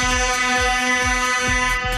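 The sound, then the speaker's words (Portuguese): A horn sound effect blares with a loud, steady, richly harmonic tone for two seconds, with a regular low throbbing pulse repeating beneath it. “Pediu a buzina, toma aí, ó.”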